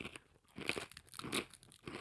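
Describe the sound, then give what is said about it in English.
Someone crunches and chews a fortune cookie, giving a few crisp crunches between softer chewing and crumbling sounds. “The first bit of the cookie tastes good and then it goes down?”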